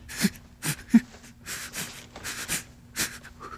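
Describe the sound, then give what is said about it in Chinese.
Deep breathing from a person being urged to relax before a painful treatment: soft, breathy puffs repeat many times in an uneven rhythm, quiet and without speech. “深呼吸，深呼吸”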